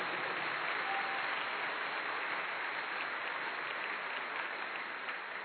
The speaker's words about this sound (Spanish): Dale un aplauso fuerte al Señor.